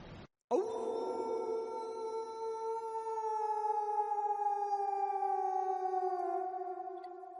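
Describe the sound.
A wolf howls in one long, sustained cry that holds steady and sinks slightly in pitch over about seven seconds, heard alone with no voices.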